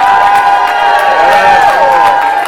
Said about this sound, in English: Okay, now put your hands together for Jesus. Come on. The Bible said, oh, clap your hands, all your people. Shout with the voice of triumph.